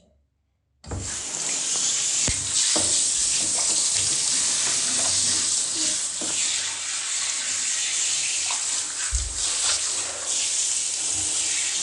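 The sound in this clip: Water runs to rinse something again, starting abruptly after a short quiet moment and then pouring as a loud, steady hiss with small splashes until the end.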